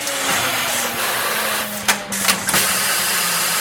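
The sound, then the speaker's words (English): A large cannabis joint-rolling machine the size of a toll booth, running in an office building being converted into a manufacturing hub, gives a loud, steady mechanical drone with a low hum, broken near the middle by a few sharp clunks. “Only this contraption is run by technicians instead of Oompa Loompas, and it makes joints instead of candy.”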